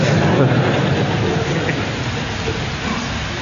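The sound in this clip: Rain falling as a dense, even hiss of drops that stays loud throughout and eases slightly toward the end.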